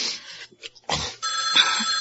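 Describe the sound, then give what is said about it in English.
A telephone bell ringing, a bright, sustained trilling ring that starts partway through and runs to the end, after a few short, faint noises. “Get the phone.”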